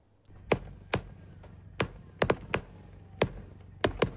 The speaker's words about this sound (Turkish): Konya'da bir havai fişek deposunda yangın çıktı. Havai fişeklerin patlamasıyla korku dolu anlar yaşandı.